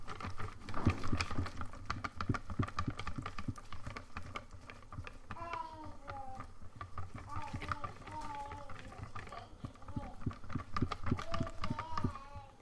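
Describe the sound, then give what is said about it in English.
Fast, steady whisk strokes in a bowl of runny crepe batter still holding floaty bits of flour, a continuous rhythmic clatter of many strokes, with a voice talking quietly over part of it. “Nice to see that the whisking is coming through stronger than my voice.”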